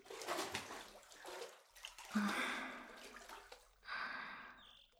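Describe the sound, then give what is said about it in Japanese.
Soft water sloshing and splashing as someone settles into a filled bathtub, quiet and uneven, with a brief louder surge of moving water near the end. “泡を全部洗い流そうか。さあ、一緒に湯船に浸かろう。”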